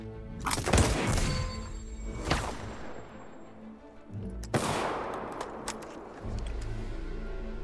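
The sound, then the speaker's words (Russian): Gunfire from an assault rifle in a weapons test after the rifle is dipped in dirty water, a few loud sharp bursts of shots, each followed by a long ringing decay, with quieter gaps between them. “Лейтенант окунает автомат в корыто с грязной водой. Встряхивает. Несет на позицию, передает капитану. Огонь по готовности!”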